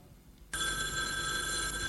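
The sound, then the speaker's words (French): Telephone bell ringing, starting abruptly after a short quiet moment and then sounding as a steady, bright, continuous ring to the end. “Excusez-moi, je dois décrocher. Le téléphone qui vient de sonner.”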